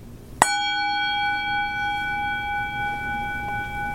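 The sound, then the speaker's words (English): A single bell is struck once, and a clear metallic chime follows as bright, steady tones ring on for several seconds. The ringing decays slowly over a faint low background hum. “It sounds like one of those wonderful bells. And you know what I'm talking about. You know? It sounds like this.”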